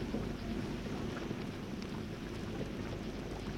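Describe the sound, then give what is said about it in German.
Hail patters down during a thunderstorm as a dense, faint, steady rushing hiss with scattered small ticks and a low rumble underneath. “Die ersten Hagelkörner. Sie prasseln herunter wie gefrorener Kies.”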